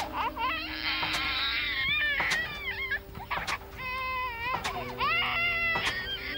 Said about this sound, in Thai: โอ้ทำไมเขาร้องไห้ขนาดนี้นะ